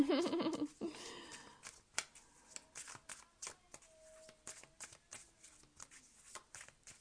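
Oracle cards being shuffled and drawn: a dense riffling rush at first, then many sharp, dry card snaps and slides in an uneven rhythm, heard alone with no talk.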